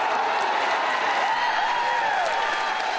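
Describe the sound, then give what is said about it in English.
Standing ovation from a startled audience greeting the unannounced president: a dense, steady wash of clapping and crowd cheering that carries on without a break. “The president stepped forward, unannounced, from behind a curtain and was met with a standing ovation from a startled audience.”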